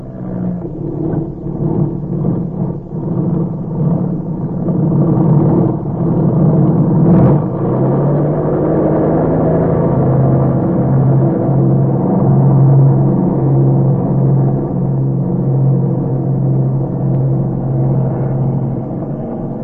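Airplane engine droning as a plane prepares to take off, a steady, loud, low roar with a brief sharper burst midway before settling into an even, sustained hum.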